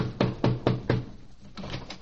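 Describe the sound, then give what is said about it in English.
Knocking on a door: four firm, evenly spaced knocks, then a short pause and a few lighter raps. The sound is dull and muffled, with no talking. “I think I'll knock on the door.”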